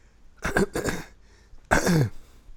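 A person clears their throat with rough, husky coughs: two short bursts close together, then a pause and a longer, throatier clearing, all fairly quiet.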